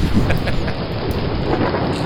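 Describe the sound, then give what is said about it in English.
Rain falling at Yankee Stadium during a downpour makes a steady, dense hiss that holds constant with no breaks or distinct drops standing out. “Why are we in the rain?”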